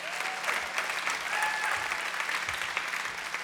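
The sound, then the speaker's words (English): An audience at a church service applauds as adult-ministry pastors are welcomed to the stage, with dense, even clapping that stays loud throughout. “Let's give it up for these guys.”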